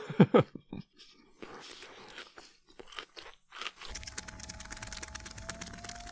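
Crunchy chewing of a whole broccoli floret taken in one big mouthful: loud wet crunches burst out at the start, then give way to steady, softer munching and mouth noise that carries on to the end, with no talking.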